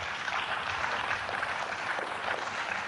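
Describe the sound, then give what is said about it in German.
Steady applause from an audience: dense, continuous clapping that holds at an even level from start to finish, with no voices over it. “Ist schön, wenn ihr klatscht”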